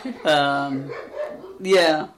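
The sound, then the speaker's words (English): Impatient dogs vocalize in two drawn-out, tonal barking and whining bursts, the second following a short pause. “Your dogs are getting impatient. It's just her.”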